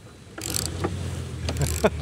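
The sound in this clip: Mechanical whirring from a camper van slide-out extending to widen the living space: a low, steady motor hum under scattered clicks and clunks, ending in a sharper knock.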